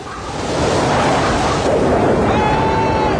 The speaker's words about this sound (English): They encounter a tropical storm. The wind gets up, lightning flashes, and there's a downpour.